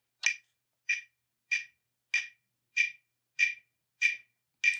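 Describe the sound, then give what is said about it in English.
A metronome clicks out counts at a steady tempo: eight crisp, bright ticks, evenly spaced about two thirds of a second apart, sounding alone against silence. “we'll set a metronome, you'll get 8 counts, and you're in, and for 32 counts of the metronome”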